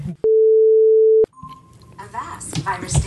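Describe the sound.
A phone left switched on gives an alert: one loud, steady electronic tone lasting about a second, cutting off abruptly before people start talking.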